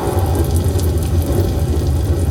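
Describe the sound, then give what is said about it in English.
Synthesized rain, made with a granular particle technique in which tiny impulses excite short ringing filters, forms a dense, steady, loud patter of countless tiny droplet clicks. “And the rain effectively produces a particle system. This is a granular technique.”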